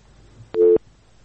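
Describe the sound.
Telephone busy tone after a caller's line drops during a radio call-in show: a single short, loud electronic beep at a steady pitch, set against faint background noise.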